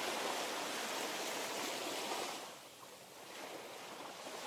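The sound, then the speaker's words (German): Gentle sea waves wash onto a beach as a soft, steady hissing rush that eases back midway, then swells again at a low, quiet level. “Du hörst das Rauschen der Wellen, die ganz sanft an den Strand spülen.”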